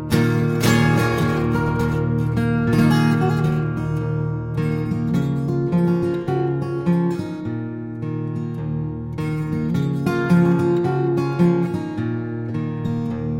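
Finger-picked solo acoustic guitar played live at a ground-floor performance venue: a steady, ringing stream of plucked notes over sustained low bass strings, moderately loud and continuous with no voices.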